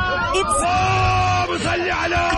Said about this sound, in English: It's definitely a roller coaster, right? A roller coaster, good, because a lot of girls scream.